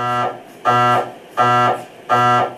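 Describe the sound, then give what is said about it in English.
MRI machine scanning noise: loud, harsh buzzing tones pulsing in a steady rhythm, three full bursts of about a third of a second each after a cut-off one at the start, separated by short, quieter gaps. “Magnetic resonance imaging, or MRIs, don't necessarily look scary to adult patients, but they do make a sound roughly like this.”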